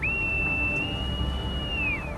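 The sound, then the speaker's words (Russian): A boatswain's pipe is blown on a warship's bridge: one shrill, sustained high note lasting about two seconds that rises at the start, holds steady and drops away at the end, sounding faint over a low background hum. “Боцман подносит губам морскую дудку.”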